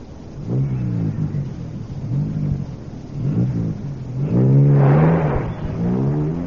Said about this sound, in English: I wish he wouldn't drive so fast.